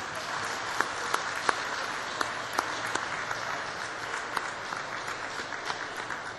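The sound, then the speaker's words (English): An audience gives steady applause to welcome students and a quintet, with many hands clapping evenly and a few sharper claps standing out. “It would be a nice idea to give them a hand when they come in, and also a hand for Brian Sand and his quintet over here to the side.”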